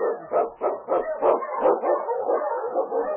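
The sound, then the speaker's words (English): Eskimo sled dog barking in a storm-and-snow trail scene: a quick, regular string of many sharp, high yelping barks, each short and bright, sounding alone without voices. “The Wonder Dog King, swiftest and strongest of Eskimo dogs, blazes the trail through storm and snow for Sergeant Preston as he meets the challenge of the Yukon.”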